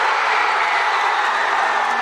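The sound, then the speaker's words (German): Crowd roar as fans celebrate Mesut Özil's goal, the only goal of the match after about an hour, for Germany; a dense, loud, unbroken wall of cheering runs throughout. “Umso größer war der Jubel, als Mesut Özil nach einer guten Stunde das erlösende und einzige Tor schoss.”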